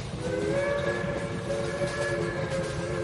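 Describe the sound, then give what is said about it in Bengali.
A steam train's whistle blows loudly as the train starts to move. The whistle is a steady, sustained tone over a continuous low rumble of the engine and carriages. “Signal হয়ে গিয়েছিল, ট্রেনটা সজোরে বিসল বাজিয়ে ভোস ভোস করে ধোঁয়া ছেড়ে ধীমে তালে চলতে শুরু করল।”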